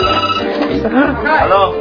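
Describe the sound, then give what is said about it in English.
A telephone ringing: a steady electronic ring tone with dense, buzzing harmonics that holds an even, loud level throughout. “Answer the phone.”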